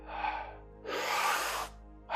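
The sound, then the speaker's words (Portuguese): Breathing during a guided breathing exercise: a soft airy breath followed by a longer, louder rush of air, then the start of another breath at the very end, heard alone without talk. “Inspira, expira. Inspira, expira. Para dentro, para fora.”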